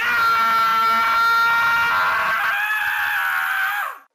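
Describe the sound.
A man screams in terror after a cold, bony hand grabs his, one long harmonic cry held for about four seconds that then breaks off abruptly.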